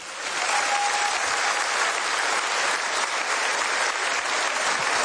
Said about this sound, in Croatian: Molim vas, pljesak za Paola Kaštelana, prije njega za Doru Bokulić.